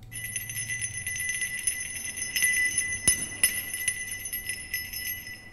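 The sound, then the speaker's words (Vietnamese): A small bell jingles softly with a thin, steady ringing tone, broken by a few light, sharper tinkles as it sways. “Tiếng chuông khẽ leng keng kêu lên từ ngoài, theo bước chân của người nọ mà đi vào bên trong.”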